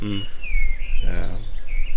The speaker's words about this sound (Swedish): Men med lite fågelkvitter så där i bakgrunden så kanske det är lättare att somna.